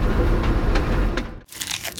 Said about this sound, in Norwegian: Spiser du reker? Ikke du allergisk mot skalldyra?